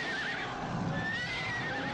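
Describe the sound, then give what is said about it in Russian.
Horses of a French cavalry charge make a dense, continuous rush of hoofbeats with a whinny rising above it, the noise holding steady from start to end. “Шеренги французской конницы разделяются, окружают каре.”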